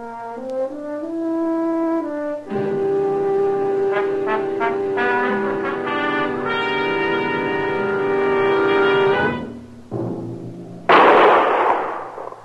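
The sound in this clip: A gunshot fired at a raccoon on the prairie bursts out loud and sharp near the end, after a long stretch of sustained musical tones.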